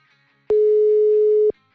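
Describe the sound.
A telephone busy tone sounds on an unanswered call: a single steady, mid-pitched beep lasting about one second, clear and alone against near silence.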